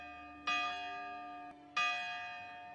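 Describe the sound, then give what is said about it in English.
A morning church bell tolls twice, each slow, resonant strike swelling quickly and then fading into a long, humming decay. “Like when a children's choir sings, or when a morning church bell rings,”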